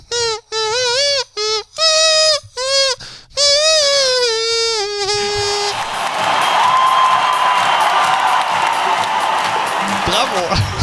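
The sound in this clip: Eurovision theme imitated in nose-flute style with teeth and lower lip: a run of short, reedy melodic notes and a held tone, then cheering, whoops and applause from a crowd.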